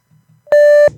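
A single loud, steady, high electronic beep from an answering machine, lasting about a third of a second and preceded by faint low murmurs.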